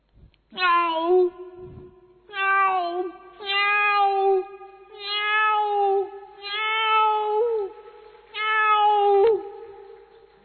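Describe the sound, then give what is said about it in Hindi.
A human voice imitates a cat meowing, giving six long, loud, wavering meows separated by short pauses, with nothing else heard. “बिल्ली, बिल्ली कैसे कर दी, बिल्ली अपने बच्चों के लिए भोजन लेके जा रही है, मुख में चूहा पकड़ा है,”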